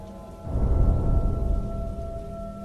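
A rumble of thunder swells in a rainstorm after half a second, heavy and low, then slowly fades back into steady rain noise. A faint steady hum runs throughout.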